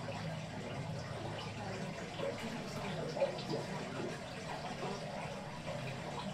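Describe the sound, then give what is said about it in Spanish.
A stream runs past a stable in the village of Muel, its water making a faint, steady rushing and gurgling that continues unbroken through the whole recording. “seleccionando uno de ellos, como por ejemplo este, se escucha, en este caso es un arroyo que pasa por la cuadra.”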